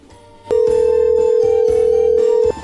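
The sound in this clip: A telephone ring tone sounds as a call is dialed: one long, steady, unbroken tone of about two seconds begins abruptly and cuts off cleanly.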